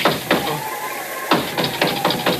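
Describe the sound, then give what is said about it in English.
Knocks on a door: a short series of sharp raps, two early ones, a pause, then a quicker run of knocks, over a steady hiss. “That was the sacred nine knocks of Oompa Papa.”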